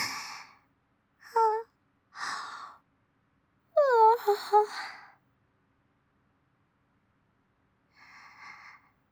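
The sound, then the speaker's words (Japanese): A person gives a big yawn, a long breathy voiced sound whose pitch falls and trails off, set among several shorter breathy sighs and snorts. “もう兄さん大きくあくび”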